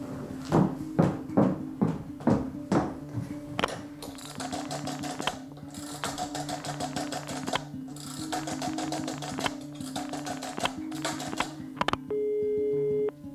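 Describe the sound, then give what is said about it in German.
A telephone being dialed to call a club: several runs of rapid mechanical clicking from the dial, then a steady electronic tone on the line at the end. “Ich glaube, ich sollte in seinem Club anrufen.”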